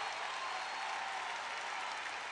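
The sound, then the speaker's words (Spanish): Audience applause greeting a performer: dense, even clapping from many hands, faint and unbroken throughout, with no talking over it. “¡Fuerte el aplauso!”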